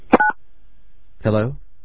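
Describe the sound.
A single short telephone keypad tone sounds as a button is pressed on a new phone while the caller tries to lower the volume. After a pause, a brief voice follows.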